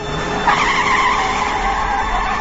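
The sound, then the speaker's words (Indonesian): Car engine revving hard while a tire spins stuck in a water puddle, a steady rough roar with a continuous whining squeal held throughout, no voices. “Pak Arya terus menancap gas. Kami mencoba untuk mendorongnya.”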